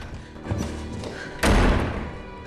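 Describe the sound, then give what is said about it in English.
A bedroom door being shut in a drama: one heavy, sharp thud partway through, over a low background rumble. “Once she reaches her bedroom, she shuts the door behind her, but he opens it to follow her in.”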